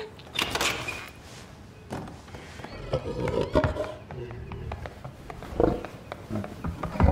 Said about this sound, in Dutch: Did that pig just open the door? Yes. It did.